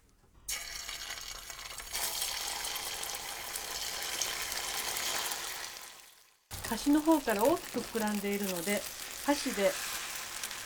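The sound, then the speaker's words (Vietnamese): Steady sizzling of an egg mixture frying in a preheated small frying pan with plenty of oil. The hiss cuts out briefly partway through, then returns with a voice talking over it. “Chú ý phải làm nóng chảo trước khi đổ phần hỗn hợp trứng vào. Điều này giúp cho phần trứng tráng sau khi hoàn thành được mịn. Lưu ý là khi cho nhiều dầu cũng giúp thành phẩm được mịn hơn.”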